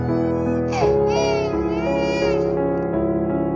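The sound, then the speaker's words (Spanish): A newborn baby girl cries in a high, wavering wail that swells and then trails off over a sustained, droning background tone. “Se oye el llanto de una guapísima niña, tan bonita como desgraciada.”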